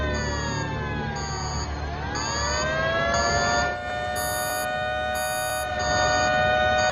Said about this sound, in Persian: زنگ خطر زیرزمینی.